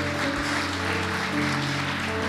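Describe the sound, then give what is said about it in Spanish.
Applause from a church audience during a Sunday morning service: a dense, steady wash of clapping that holds an even level throughout, with sustained low tones running underneath. “ese aplauso al Señor Todopoderoso en esta mañana, ¿verdad?”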